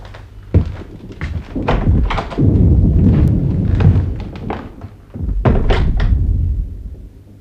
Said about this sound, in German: Dieser Kanonendonner.